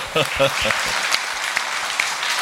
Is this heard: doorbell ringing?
no